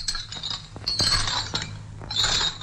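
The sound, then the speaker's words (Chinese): Clinking of leg irons and handcuffs dragged by a prisoner stepping down from a vehicle: repeated bright metallic jingles and rattles in a few clustered bursts over a low rumble. “陈一鸣拖着脚镣和手铐，在两个看守的押解下下了车。”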